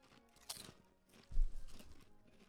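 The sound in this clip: Crunching of an onion-flavoured snack that tastes like a potato chip, heard as one quiet crisp bite followed by a louder crunch and a brief stretch of chewing, all fairly faint.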